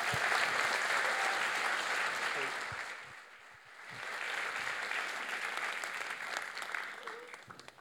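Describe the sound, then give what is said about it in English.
A church audience applauding to welcome a speaker up front, with thick, continuous clapping that dips briefly midway and then swells again and carries on to the end. “So could we just put our hands together and welcome Bill Cusack.”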